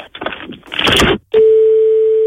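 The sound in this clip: A telephone line tone after a call was not properly hung up, a loud, steady single-pitched tone holding unbroken for about a second, following a burst of muffled noise.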